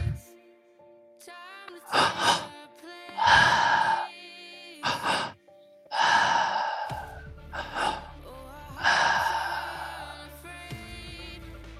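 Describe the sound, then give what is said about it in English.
Slow, deep breathing during breathwork: a few long, airy breaths of varying strength separated by pauses, over soft sustained background tones. “nice, slow big, deep breaths.”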